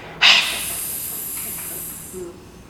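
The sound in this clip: A human voice makes a long, sustained hissing 'sss' like the letter S. It starts abruptly, holds steady and loud for about two seconds, then cuts off.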